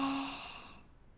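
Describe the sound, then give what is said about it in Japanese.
A single slow, soft breath out during a calm guided breathing exercise. The airy exhale is faint and fades away gradually. “吐いて、吸って、”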